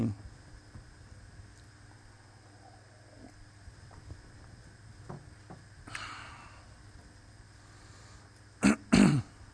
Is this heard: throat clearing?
yes